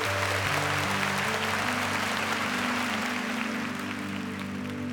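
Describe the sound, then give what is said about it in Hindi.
Applause rolls through a hall as a song ends, a thick, even crackle of many hands over sustained low musical tones that shift in steps, holding steady throughout. “तभी गाना बंद हो गया और सारे hall में तालियों की गड़गड़ाहट गूंज उठी।”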